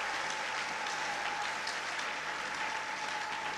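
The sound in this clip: A church audience applauds during a service, dense continuous clapping holding steady throughout without a pause.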